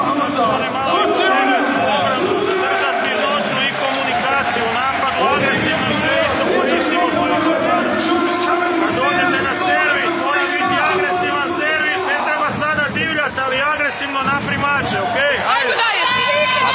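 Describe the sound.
Handball arena crowd during a Croatia timeout: a steady roar of hubbub and chatter fills the hall, with voices talking over it throughout.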